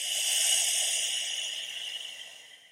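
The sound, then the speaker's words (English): One long, soft breath hisses through a single nostril with the other closed off, a steady airy rush that gradually fades away. “Take some really good deep breaths by closing off one nostril. Doesn't matter which one. Taking a deep breath in. And then right back out through that same nostril.”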